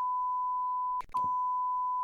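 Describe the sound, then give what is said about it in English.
A censor beep over a spoken spoiler: a steady, high-pitched electronic tone held across the whole clip, broken briefly midway by a short snatch of voice before resuming. “I thought we could beep it out.”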